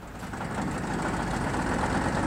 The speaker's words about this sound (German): Du musst den Motor noch mal anlassen